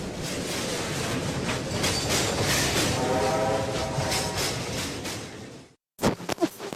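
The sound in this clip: A departing train used as a radio jingle effect: loud, continuous rumbling rail noise with clattering wheels and a horn-like tone, then an abrupt cut to brief silence and a few sharp pulses.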